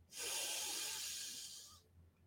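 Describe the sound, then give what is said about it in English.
A person breathing in deeply during a guided breathing exercise: one long, smooth, airy inhale that starts abruptly, holds steady for over a second and then fades away. “Now, don't rush through these. Allow your body to take the time to breathe in”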